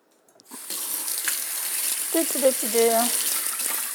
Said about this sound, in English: I'm gonna rinse off my hands because I've just been bear clawing it and just tearing it up.